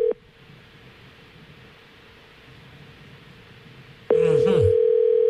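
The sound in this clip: Ringback tone on an unanswered phone call to a bar in Honolulu: a steady tone ends at the start, about four seconds of faint line hiss follow, then the tone returns loud and sustained.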